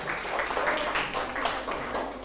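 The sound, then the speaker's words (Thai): Faint classroom applause as students clap for a group during a math lesson, a brief, soft, even patter of hands lasting about two seconds. “ปรบมือให้กลุ่ม5หน่อยครับ”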